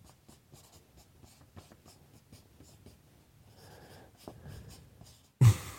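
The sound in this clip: Pen scratching across paper as lines are written, with many quick, faint strokes in an irregular rhythm, ending on a sudden louder burst of noise.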